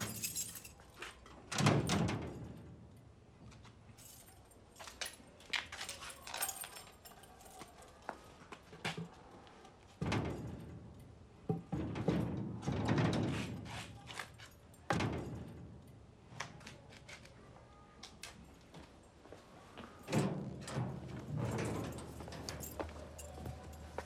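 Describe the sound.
Temple gates and doors are shut for the night, giving a few heavy, faint thuds and bangs spread across the stretch, with quieter clanks, rattles and knocks between them.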